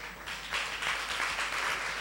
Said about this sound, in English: Let's clap for the person.